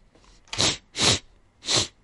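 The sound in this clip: A voice imitates a creature sniffing the air with three sharp, breathy sniffs at an even pace, alone with no talk.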